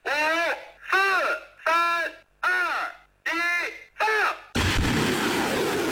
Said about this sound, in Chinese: 发射指令下达，火箭弹呼啸出膛，直扑100公里外的海上靶区，首轮打击精准覆盖目标。